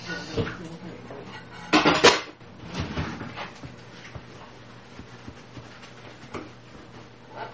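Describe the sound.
Dishes being washed by hand at the end of the day, with clinks and clatters of crockery and utensils that come and go, growing busier in the middle, over a steady low background.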